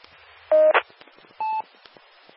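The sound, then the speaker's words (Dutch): Two short electronic beep tones over a two-way amateur radio link: a steady mid-pitched tone, then a pause and a second, slightly higher tone, with faint static ticks between them and a brief click at the end. “Ja, ik hoor het toet.”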